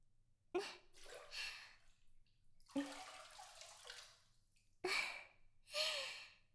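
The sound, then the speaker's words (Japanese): Someone's back is scrubbed during a bath: rough, hissing brushing strokes of uneven length come in a few separate passes with short pauses between them, fairly faint and without talk. “次はお背中をきれいにしていきますよ。うん。ゴシゴシゴシゴシ。”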